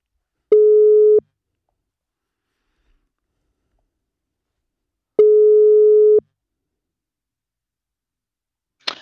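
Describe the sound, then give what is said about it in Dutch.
Ringback tones on a phone line while a call to someone's mother is placed: two steady mid-pitched tones, each about a second long with a long silent gap between them, then a short burst of noise at the end. “Nou, laten we dan je moeder maar even bellen.”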